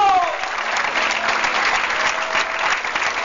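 Congregation applauding in a church service after a sermon on Christ's death. The clapping is loud and dense, with many hands together in a sustained roar that holds steady throughout.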